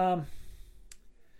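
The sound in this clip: A single sharp computer mouse click, made while selecting a name on screen, snaps out once near the middle after a short burst of voice, with only a faint low background hum around it.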